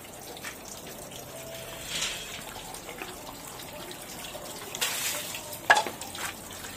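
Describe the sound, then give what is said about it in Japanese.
Running water hisses steadily as hands are rinsed, a continuous soft splash with a few faint louder spatters and drips along the way. “じゃあ手洗いましょう。 はい、まず手を洗いましょう。”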